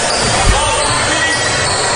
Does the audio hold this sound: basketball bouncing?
yes